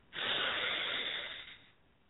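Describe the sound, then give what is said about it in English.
A single long, airy exhale during a guided group breathing exercise holds steady for over a second, then fades out softly. “Let's breathe, family.”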